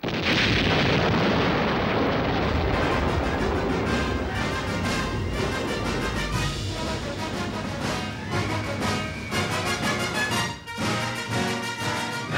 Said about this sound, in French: Il n'y a qu'une arme qui arrêtera les Martiens. La Maison Blanche vous confirmera l'ordre d'utiliser la bombe atomique. Attention, abritez-vous.